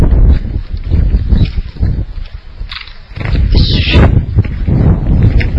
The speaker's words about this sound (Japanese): 風が強い。